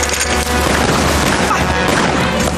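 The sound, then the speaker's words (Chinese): Heavy gunfire with crashes and booms forms a dense, unbroken barrage. Rapid shots blur into a loud, continuous roar that stays strong for the whole stretch. “开枪喽”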